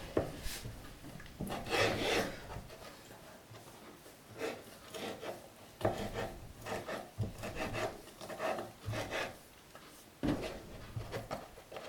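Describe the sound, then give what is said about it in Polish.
A knife slices an ingredient for a Margherita pizza into roughly one- to one-and-a-half-centimetre pieces, making many rasping, scraping cuts in an uneven rhythm, with louder strokes between quieter ones. “Delikatnie kroję ją na mniej więcej takie centymetrowe, półtora centymetrowe kawałki.”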